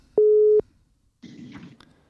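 A telephone line tone sounds while a call is being placed, a single short, steady, clean beep, followed after a pause by a brief burst of rougher noise.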